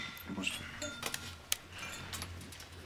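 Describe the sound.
Glasses clink together in a toast, a few light, high clinks close together over a low background murmur.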